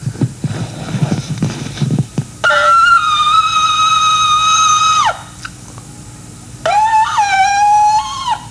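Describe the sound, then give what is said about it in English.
Ram's horn shofar blown in two sustained blasts: a steady, brassy tone of about two and a half seconds that drops away at the end, then after a pause a shorter, wavering blast, preceded by a brief stretch of noisy rustling. “that may be the best shofar performance by a Gentile in history”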